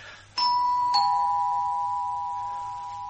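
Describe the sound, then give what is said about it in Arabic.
Doorbell ringing at an apartment door: a two-note ding-dong chime, a bright first tone followed by a slightly lower second one, both leaving a long, slowly fading ring. “اضرب الجرس.”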